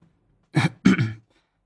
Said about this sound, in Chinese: 他清了清嗓子说，